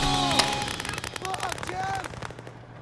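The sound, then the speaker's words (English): Paintball guns fire at a mini tank in a dense, rapid burst of sharp pops that keeps going for most of the stretch and then thins out near the end, with voices mixed into the barrage. “Poopies is pursued by Wee Man, but then he climbs onto the back of the mini tank before being pelted with paintballs.”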